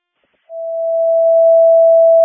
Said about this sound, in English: Can I get a test of the tones at station 3, please?